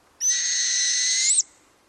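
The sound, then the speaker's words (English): A northern hawk owl gives one sustained high whistled call lasting just over a second, steady in pitch and clear against a quiet background. “It has the face of an owl, broad, pale, and framed by a bold black border with blazing yellow eyes that face forward. It's a northern hawk owl.”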